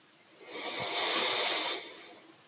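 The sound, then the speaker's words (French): A single deep breath drawn in during a guided breathing exercise: a soft, airy hiss that swells, holds for about a second and then fades, heard alone without talk. “On inspire à fond.”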